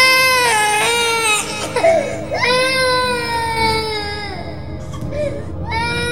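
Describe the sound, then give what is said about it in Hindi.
Baby crying in sustained, high-pitched wails with wavering pitch, broken by a short catch in the middle and a few quieter sobbing bursts near the end, loud throughout. “क्या तुमने किसी बच्चे की रोने की आवाज सुनी?”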